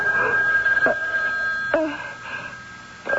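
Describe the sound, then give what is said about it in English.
A telephone rings in a home, a steady electronic tone sounding throughout with a few brief sharper bursts breaking through at intervals. No one speaks during it. “What is... What, oh, it's a phone. Phone.”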